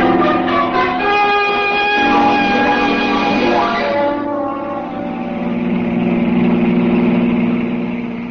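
Car engine driving fast at nearly 70 on the road, a loud, steady harmonic drone whose pitch dips about halfway through and settles into a lower rumble.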